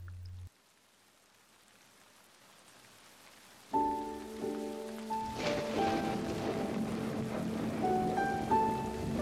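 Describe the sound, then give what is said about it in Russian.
Light drizzling rain makes a soft, steady hiss and patter that begins after a near-silent opening and grows slightly fuller, with faint sustained tones running alongside. “На утро снова заморосил дождь. Слава богу, не ливень.”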